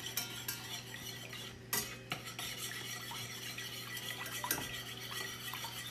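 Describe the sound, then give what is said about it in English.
Eggs being whisked into a curd in a home kitchen: a continuous rapid scraping and ticking of a metal whisk against the pan, punctuated by a few sharper clinks and knocks. “So you have to whisk all the time.”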